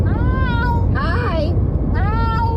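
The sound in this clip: A cat meowing in a way that resembles someone saying "hi": a few drawn-out, high tonal calls with wavering, gliding pitch, closely spaced one after another.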